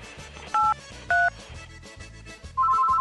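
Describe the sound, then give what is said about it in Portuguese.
Telephone keypad tones dialing a pizzeria's number: three clear touch-tone beeps, two short and evenly spaced, then a longer one running to the end, over a steady low rhythmic pulsing beneath. “Vamos ligar aqui agora.”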